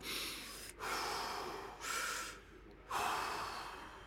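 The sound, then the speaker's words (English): Deep, heavy breathing from a distraught man on a phone call: a few long, noisy breaths with short gaps between them, soft and breathy throughout. “Deep breaths. That's it. Deep breaths.”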